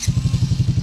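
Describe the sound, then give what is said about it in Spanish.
A Suzuki DR150 ABS adventure-style motorcycle engine runs with a rapid, steady, throbbing low-pitched pulse that repeats evenly throughout at a moderate level. “Una moto con diseño aventurero, suena más o menos así.”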